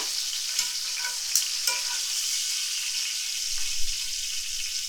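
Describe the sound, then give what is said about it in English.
Chicken browns in a frying pan with a steady, bright sizzle, partly cooked before it finishes in a sauce. The hiss stays even throughout, with a few small ticks. “Because this is gonna cook even more in the sauce, okay? So we just want to get it browned on both sides real nice.”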